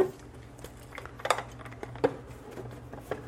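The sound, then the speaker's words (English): Measuring spoons and utensils are handled in a kitchen while chocolate chip cookie dough is being made: a few faint metallic clinks and taps scattered over a quiet background. “Get out some measuring utensils here.”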